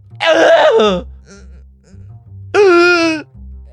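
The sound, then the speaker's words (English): A voice imitates a woman gasping for air: two short, strained vocal gasps with a breathy, moaning tone and a clear pause between them. “she makes these noises that makes it seem like she's gasping for air”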